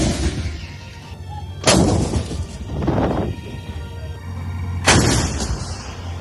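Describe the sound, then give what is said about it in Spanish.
Artillery fire during the bombardment of Gaza City: a few heavy blasts with rumbling tails, spaced a second or two apart, and no voices. “El bombardeo sobre la ciudad es incesante.”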